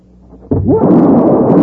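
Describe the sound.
A derringer shot rings out as a single loud, abrupt report after a quiet moment, followed by a dense, lingering rumble.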